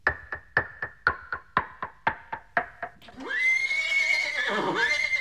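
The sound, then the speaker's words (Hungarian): Dapple-grey horses neighing: a long, loud, shrill whinny follows a quick, even run of clopping knocks that fill the first few seconds. “Látod? Megálltak, mintha a lábuk a földbe gyökerezett volna. 6 szép almás deres paripa.”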